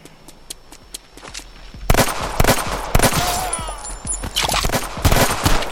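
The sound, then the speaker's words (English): Gunfire in a video game: a few light shots, then from about two seconds in many loud, sharp cracking bursts in quick, irregular succession, with brief gaps between volleys. “Two shots. Reload.”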